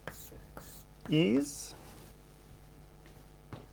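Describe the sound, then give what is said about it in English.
Handwriting a mathematical formula, with a short squeaky stroke standing out among a few faint taps and scratches in otherwise quiet surroundings. “let me write it this way, wi, is a projection matrix times xi”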